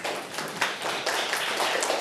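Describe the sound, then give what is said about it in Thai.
Group clapping from a class of students, applauding together at a teacher's prompt after a lesson in a classroom: a dense, steady patter of many overlapping hand claps that holds at even loudness for the whole stretch, with no voices. “ปรบมือกับทุกคนเลยค่ะ”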